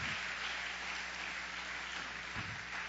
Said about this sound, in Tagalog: Can you give God your best clap of praise, of offering to the Lord?